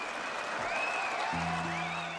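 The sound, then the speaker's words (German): Concert audience in Leipzig applauding and cheering: a steady, dense wash of clapping and crowd noise that holds throughout, with thin, shrill cries rising above it. “Applaus, Schreie, Jubel.”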